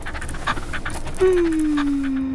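A small brown dog with big blue eyes pants in quick, soft breaths, then gives a long, clear whine that slides slowly down in pitch.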